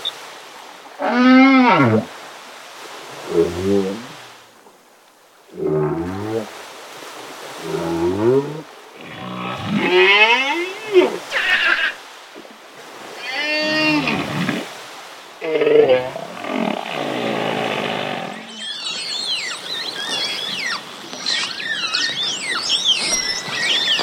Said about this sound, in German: Ich habe mal Walgesänge bei einem Tauchgang aufgenommen. Die spiele ich euch gerne mal auf meinem MP3-Player vor. Achtung, das Konzert beginnt.